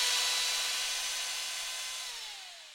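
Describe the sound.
A power drill bores into a wall with a steady, piercing high whine, loud at first, then winding down as its pitch drops and it fades toward the end.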